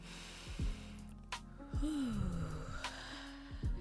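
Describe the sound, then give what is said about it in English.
Several people draw a deep breath together: quiet, airy inhales with a few breathy bursts and a soft vocal hum, without clear speech. “Everybody just take a deep breath together real quick before we even start.”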